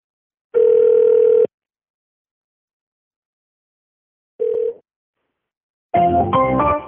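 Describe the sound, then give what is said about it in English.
Telephone tones on a line while a number is dialed: a steady tone burst, a short tone a few seconds later, then a dense cluster of mixed tones at the end, with no talk. “Did it not dial the right number?”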